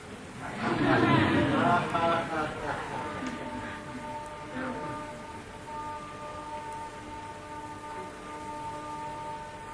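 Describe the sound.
Steady rain falling, a continuous soft hiss of drops on surfaces, a little louder in the first few seconds before settling into an even, unbroken wash.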